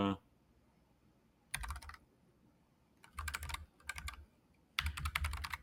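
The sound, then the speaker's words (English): Typing on a computer keyboard: short, fast bursts of clicking keystrokes separated by quiet pauses, with the final burst the loudest. “this is where when you start typing these things in multiple times, you're like, hey, I wish I had a clipboard.”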